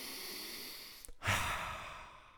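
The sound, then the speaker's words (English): A single slow, deep breath, soft and breathy, standing out briefly against a steady faint hiss. “And now, let's take a couple of deep breaths, folks, shall we?”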